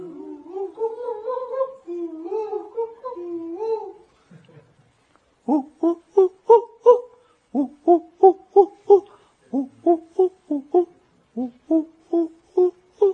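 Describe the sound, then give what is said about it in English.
A human voice imitates the call of the koel (kokil) bird, first with a wavering, sung phrase, then with many short hooting whistles repeated in quick, even series, fairly loud and alone. “Krishna entered Kokilavan one day, and he happily made a sound imitating the kokil. How's that sound?”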